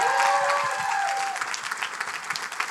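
Church audience applauding as their executive pastor is welcomed, a dense steady wash of many hands clapping that stays loud throughout and eases slightly toward the end.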